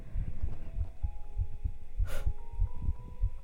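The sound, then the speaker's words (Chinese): A heartbeat beats steadily: many regular, low, soft thumps follow one another at an even pace over a faint hum. “你的心跳听起来好稳定啊，”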